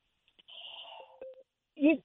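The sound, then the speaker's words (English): An electronic beep on a telephone call-in line: a steady high-pitched tone of about half a second, then a couple of short lower tone blips and a brief voice-like burst at the end. “I just heard a beep.”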